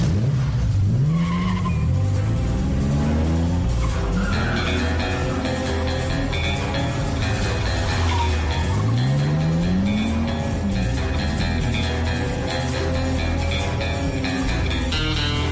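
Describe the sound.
Sports car, a classic Aston Martin DB5, accelerating hard with tires squealing and skidding: a loud, continuous engine roar whose revs repeatedly climb and drop, overlaid with sharp, high tire screech throughout.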